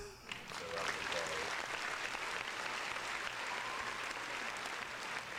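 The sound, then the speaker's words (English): Applause from a crowd: steady, dense clapping that runs loud and unbroken for the full five seconds. “Round of applause.”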